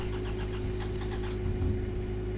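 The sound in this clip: A car engine with both fuel pumps switched on cranks and runs, giving a dense, steady low mechanical drone that stays loud throughout.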